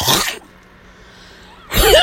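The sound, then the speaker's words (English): A feral cat hacking up a hairball: two harsh, raspy retching bursts, loud and choking, separated by a quiet pause. “There's a hairball. There's one having a hairball behind me. It sounds like they're dying when they have hairballs.”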